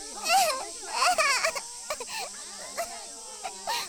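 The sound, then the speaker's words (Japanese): A child sobs and whimpers in a wavering, high-pitched voice, with several uneven cries rising and falling, moderately loud, with no other voices clearly present. “ほら。もう泣き止みなよ。”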